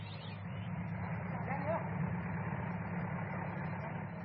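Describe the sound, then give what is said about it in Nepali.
A bus pulling in and idling, giving a steady low engine rumble that holds evenly from start to finish with no clear change in pitch. “ए मैया हेर त, बस पनि आइपुग्यो, जाम जाम।”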